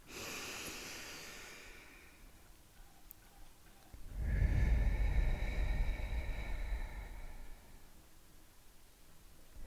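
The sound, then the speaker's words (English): A deep breath in and out: about four seconds of quieter, airy breathing, then a louder, rougher rush of breath lasting around three seconds that fades away. No voices. “take our traditional deep breath in and out.”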